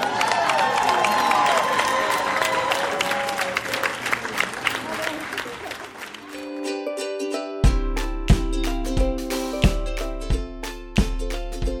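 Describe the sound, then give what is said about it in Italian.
Crowd applause and cheering for a quiz contestant: dense clapping mixed with shouting voices for about six seconds, fading away before a rhythmic musical jingle with steady beats begins. “Un bel applauso”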